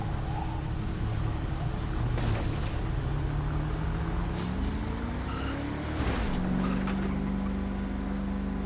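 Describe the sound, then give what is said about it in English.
Engine of a Department of Public Safety highway patrol car driving in a roleplay video game, a steady hum whose pitch climbs gradually, then drops and settles lower, with no talking. “This is one nice highway patrol vehicle. I'm glad I found this Department of Public Safety vehicle.”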